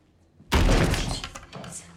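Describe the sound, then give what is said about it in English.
Bathroom door bursting open and striking a person: after a near-quiet start, a single heavy bang with a sharp onset, then a rattling tail that slowly fades. “As he burst out of the bathroom, the door bashed Sarah on the elbow.”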